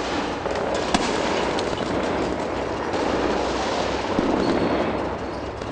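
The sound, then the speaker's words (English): Gunfire from Iraqi and Kurdish forces fighting ISIS inside Mosul, heard as a dense, unbroken wash of crackling shots and rumbling noise with occasional sharper cracks, steady and loud throughout with no voices. “So that sound you heard was Iraqi forces, Kurdish forces backed by U.S. air power who are circling at this point and deeply inside of and have basically finished conquering Mosul”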